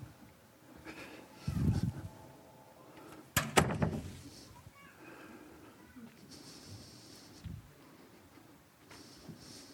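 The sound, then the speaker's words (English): Faint door sounds: two soft thuds of an open door knocking or swinging shut, separated by a short gap, over a low, steady background. “what was that about? Oh, that door was open.”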